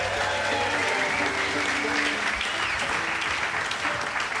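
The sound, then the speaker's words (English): Audience applause at a live concert with fiddle music, given for the sound engineer, a steady wash of dense clapping at a fairly quiet level that continues throughout. “How about a hand for Elijah Doty on the sound,”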